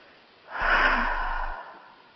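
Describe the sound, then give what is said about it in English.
A single deep breath, drawn in and let out, forms one long airy rush lasting about a second. It swells in and fades out with no talk over it. “Okay, take a deep breath in and out.”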